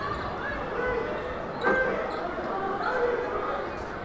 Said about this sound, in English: Tyrus Fleetwood has the ball in his hand, doing a whole bunch of dribbling, turns it over.